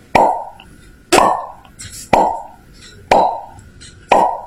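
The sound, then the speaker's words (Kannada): Soda bottles being popped open at a small shop, five sharp, loud pops at even one-second intervals, each followed by a short fading hiss. “ಅಲ್ಲೇ soda bottle ಅನ್ನು ಹೊಡೆಯುತ್ತಿದ್ದರು.”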